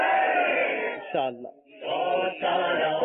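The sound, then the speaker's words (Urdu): Massed voices chant the religious slogan Faizan-e-Ala Hazrat at an Urdu-speaking team game event, a loud chorus broken by a short dip and near-silent pause before the chant swells again. “نصیب آپ کا نعرہ لگائیں فیضان اعلی حضرت”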